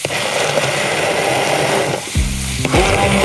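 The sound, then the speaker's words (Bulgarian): Steady sizzling and scraping as parmesan is stirred into a cauliflower mixture in a hot pan, a continuous loud frying hiss that thins out toward the end, where a low tonal hum joins in. “Към тази смес от кърфиола добавяме и малко пармезан. Ето, получава се крема.”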